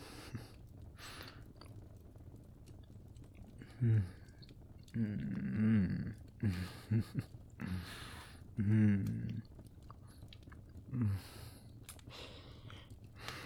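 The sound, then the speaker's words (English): Soft, wet licking and mouth sounds, quiet and intimate, broken by a few short breathy voiced murmurs. “God, you taste amazing. I just can't stop licking.”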